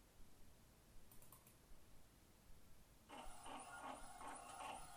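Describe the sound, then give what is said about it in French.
A printer runs by itself, faint at first, then breaks into a busy mechanical whirring and rhythmic clicking after about three seconds, with a brief click earlier. “De voir l'imprimante fonctionner toute seule.”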